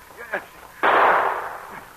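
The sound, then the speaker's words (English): One gunshot rings out in an audio drama set by a mine, an abrupt loud blast with a ringing tail that fades over about a second after a quieter stretch. “And then Pierre heard shots.”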